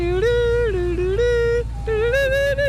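An ice cream truck's music jingle plays a bright, simple electronic melody that steps up and down in repeated phrases over a steady low hum.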